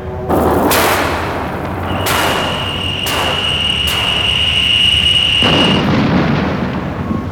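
Spacecraft guns firing at enemy fighters in space combat: a few sharp blasting bursts over a continuous roaring rumble, with a steady high whine running through the middle, loud and with no talk.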